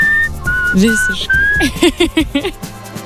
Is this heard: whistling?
yes